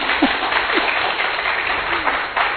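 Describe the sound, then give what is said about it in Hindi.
Audience applause, loud clapping that forms a dense, steady wash of hand claps and holds at an even level through the whole stretch. “आप तो नहीं बजा रहे, तालियां बजा रहे, वैसे इतनी हल्की तालियां नहीं थी वहां, तो बड़ी जोरदार तालियां थी, जोरदार भी बजा सकते”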